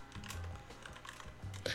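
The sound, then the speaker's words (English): Computer keyboard typing while writing something down: a faint, quick run of many soft key clicks in an uneven rhythm, with no voices. “Oh, hold on, so writing something down real quick.”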